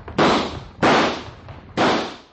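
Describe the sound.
Three loud gunshots in a dramatized Old West shootout, each a sharp crack with a short decaying tail, spaced apart, with no voices between them.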